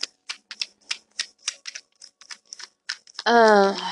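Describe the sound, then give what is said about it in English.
Tarot cards are shuffled by hand in a quick, uneven run of crisp, papery clicks and snaps, and a brief voice follows at the end. “The cards. I'm waiting for them. I'm shuffling.”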